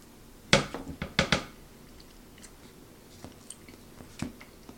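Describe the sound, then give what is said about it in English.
Someone chews a bite of chocolate chip pancake. A few loud, moist bites open the sequence, followed by softer, squishy chewing sounds spread irregularly over the following seconds. “So chocolate chip pancake, I would say the other one was better, just based on the first bite. Let me taste another.”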